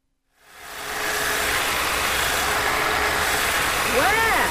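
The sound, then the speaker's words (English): A hedge trimmer cuts a hedge, its motor giving a loud, steady buzzing drone that starts after a brief silence and holds evenly to the end. “Trimming the hedge?”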